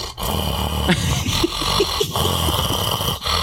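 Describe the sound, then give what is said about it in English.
A man's voice imitates a heavyset man's snoring: a few rough, growling snorts and breathy rasps over steady background noise. “He started snoring. He started fucking snoring. He was like,”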